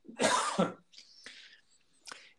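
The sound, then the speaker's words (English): A person coughs once with a loud, harsh, double-peaked burst, then makes a few quieter, breathy throat-clearing sounds. No one talks. “Sorry, excuse me one moment. I'm going to have to cough.”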